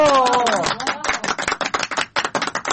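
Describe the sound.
Applause for a performer called onto the stage at an event. Many quick, distinct claps from a small crowd start under a voice that trails off, then continue alone.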